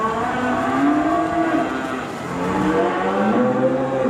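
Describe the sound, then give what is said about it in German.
Cattle lowing in a new open stable on a Virginia farm with calves and a herd; deep, drawn-out moos overlap and follow one another continuously, with no voices. “Den ganzen Vormittag über hat sich die Landwirtin um die Kälber gekümmert und um die Herde von”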